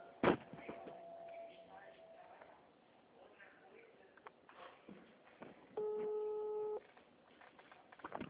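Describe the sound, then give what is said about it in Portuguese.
A telephone tone sounds while a call is being placed. One steady, faint tone lasts about a second, surrounded by soft handling noise and a sharp click near the start. “calma aí, estou ligando.”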